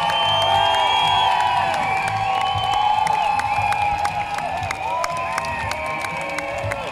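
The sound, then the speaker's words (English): A crowd cheers and whoops for the NHS, with clapping mixed in; the loud, dense roar of voices holds steady throughout and thins only slightly toward the end. “There we go. Huge cheers now for the NHS.”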